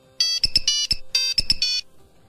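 An old telephone ringtone serves as a quiz buzzer, playing a bright, high electronic melody of quick beeping notes in two matching phrases. A short gap separates the phrases, and silence follows them.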